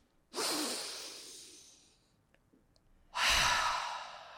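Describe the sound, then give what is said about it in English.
A deep breath drawn in and then let out during a guided breathing and affirmation exercise: a long, soft airy inhale, a short pause, then a fuller, louder exhale, with no talking. “And now we're going to breathe in, and we're going to exhale”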